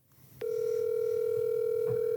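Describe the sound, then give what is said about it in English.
Telephone call tone on an outgoing call: after a short quiet lead-in, a single steady electronic tone switches on abruptly and holds unbroken to the end. “I don't think I've ever called him before. So here we go.”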